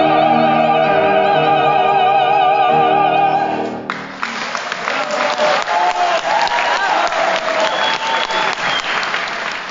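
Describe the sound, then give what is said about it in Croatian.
Singing with orchestra at a Croatian opera evening in Sydney, a joint performance of Zajc's aria U boj, u boj, ends and gives way to a loud audience ovation, dense sustained applause that holds steady to the end. “Vrhunac večeri, kako se moglo i očekivati, bila je zajednička izvedba Zajčeve arije U boj u boj, koju je publika ispratila ovacijama.”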